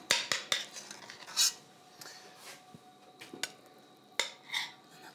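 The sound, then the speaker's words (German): A spoon clinks and scrapes against dishes while onions are filled with stuffing: a few sharp metallic taps and clicks between softer scraping, faint overall, with no talk. “Löffel und dann füllen wir die Zwiebel jetzt einfach.”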